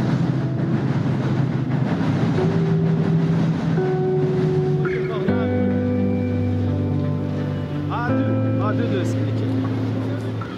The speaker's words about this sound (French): À deux pas des rails de chemin de fer de la gare de l'Est et du Nord